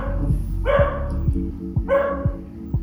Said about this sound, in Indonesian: kita lanjut lagi ke podcast ya karena anjingnya dah selesai menggonggong nih